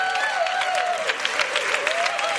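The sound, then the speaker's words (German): Audience applause at a church conference, a dense, steady clatter of many hands clapping that holds at an even loudness throughout. “Catherine noch mal einen kräftigen Applaus”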